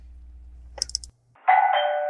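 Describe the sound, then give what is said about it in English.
A doorbell rings in a house: a quick cluster of bright chiming pulses, a brief silence, then a sustained ringing tone that holds steady until the end. “I think that was the doorbell.”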